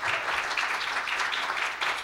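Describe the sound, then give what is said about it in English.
A church audience claps hands in praise during a morning worship service, a continuous, even wash of many hands at moderate level that carries on without a break for the whole stretch. “If you love the Lord, give him a hand clap of praise this morning.”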